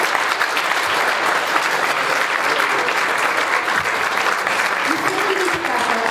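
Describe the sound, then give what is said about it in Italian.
Audience applause at a poetry slam event: dense, steady clapping from many hands that stays loud and even for about six seconds without a break. “Ok, allora un applauso ancora.”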